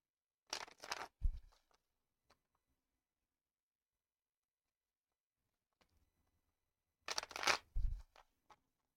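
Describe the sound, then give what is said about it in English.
Playing cards are shuffled for a tarot-style reading in two brisk riffling bursts separated by several seconds of quiet. Each burst ends in a soft thump, and a few faint ticks of card handling follow. “Let's pull a couple of cards for you as well, my friend.”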